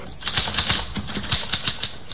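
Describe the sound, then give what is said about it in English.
A typewriter is typed in a quick, uneven run of crisp, clacking keystrokes. The bright strikes come in short bursts with slight pauses between groups, and no one speaks over them. “Here's a typewriter. Your secretary uses one. Perhaps your son or daughter write their school essays on a machine like this.”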